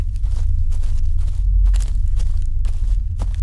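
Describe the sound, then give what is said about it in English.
Footsteps walking across a farm, a steady run of many dull, evenly spaced treads over a constant low rumble, with no voices. “They walked further across the farm.”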